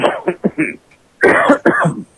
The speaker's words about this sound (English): Got a little cough going there.